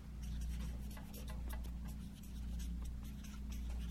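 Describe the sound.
Handwriting on paper, heard as a continuous, faint scratching of strokes with small irregular bursts, alone and without talk.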